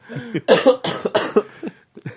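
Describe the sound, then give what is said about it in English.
A lingering cough that has persisted for weeks breaks out in a fit of several harsh, raspy bursts in quick succession, loud and close, with a brief pause before a final cough. “Oh man, sorry. I still have that cough. Still hasn't went away.”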